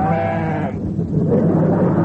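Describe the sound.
A sheep bleats loudly: one wavering, strongly harmonic cry, then a lower, rougher continuation to the end, with no talk.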